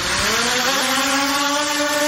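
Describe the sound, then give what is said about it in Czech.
Buzzing drones give a loud, steady droning whine made of several stacked tones that climb slightly in pitch early on, then hold level with no voices. “To nejsou motorky, to jsou... drony.”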